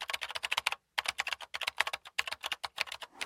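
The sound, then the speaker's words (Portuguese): Fingers tap rapidly on a computer keyboard, giving a quick run of crisp, clicky keystrokes with one brief pause early on before the typing resumes at an even pace. “E a resposta correta é... alguém a escrever no teclado de um computador.”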